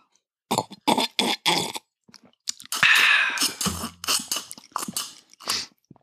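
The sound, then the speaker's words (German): Sipping a drink at the microphone: a few short wet mouth and lip noises, then a longer breathy slurp and a low throaty swallow, followed by more small mouth sounds. “Warte, ich nehme da einen Schluck von meinem köstlichen Shampoo”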